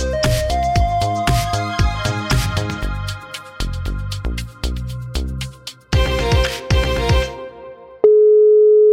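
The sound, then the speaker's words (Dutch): Ringing tone of a telephone call, a bright electronic pattern of repeated tones in a steady rhythm, ending with one sustained tone. “Jeetje, wat neem je snel op. Ja. Nou, dat viel wel mee, maar ik had mijn telefoon niet goed staan, waardoor je hem nog niet hoorde overgaan.”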